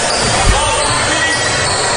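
A basketball bounces once on the court during a high school game between Fort Recovery and Jay County, a single dull low thud under a loud, steady crowd din.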